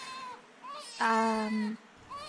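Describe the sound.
A baby cries at a workplace: faint, wavering cries, with one longer, steady wail in the middle and shorter cries before and after it.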